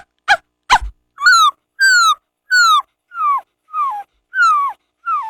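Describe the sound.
A voice imitates a puppy at a school mimicry performance: two short, sharp yips, then seven evenly spaced, high-pitched whimpers that each slide downward, loud and with no other sound.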